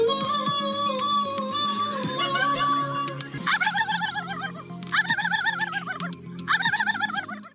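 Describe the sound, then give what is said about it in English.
Contestants at a turkey call competition at the 57th annual Turkey Fair in France imitate a turkey with their voices. Warbling yelps come first, then three loud, quivering gobble bursts in a row. “Turkey call competition held. I got a few contestants doing their best to sound like a gobble gobble.”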